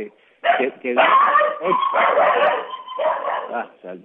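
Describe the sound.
Dogs barking during a street interview in a neighbourhood: a run of loud, rapid barks and yips in uneven bursts, with a voice mixed in among them.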